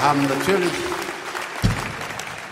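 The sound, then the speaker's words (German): An audience applauds at a concert with a steady, dense patter of clapping. A voice is briefly heard at the start. “wir haben natürlich mit diesem Applaus gerechnet und haben selbstverständlich eine Zugabe für Sie, das ist ja klar.”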